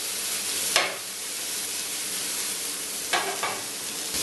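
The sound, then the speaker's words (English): Meatballs sizzle steadily in a frying pan as they caramelize, with a few louder scraping bursts where they are stirred breaking through the constant crackle. “You can see it's turned a nice, lovely caramelized color. So just give them a good stir.”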